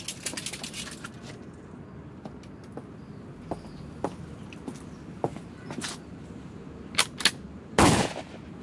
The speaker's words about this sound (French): En joue. Armée. Feu.